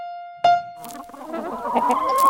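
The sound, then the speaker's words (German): Hens freed from battery cages cluck and murmur after a sudden sharp onset, building into a steady, busy layer of overlapping clucks that grows slightly louder toward the end. “An den Tagen nach ihrer Befreiung aus der Legebatterie wirken viele Hühner etwas verloren.”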